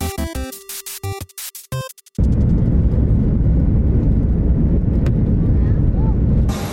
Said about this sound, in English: I just love the Hawaii airport in Honolulu. Here's a little footage from that.